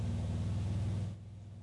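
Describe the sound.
A car engine rumbles nearby in a steady low throb that drops to a quieter, lower level after about a second.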